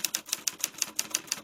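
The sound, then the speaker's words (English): An old typewriter, saved from landfill, clacks out a steady, evenly spaced run of crisp, bright keystrokes heard alone. “It's a typewriter. I saved it from landfill”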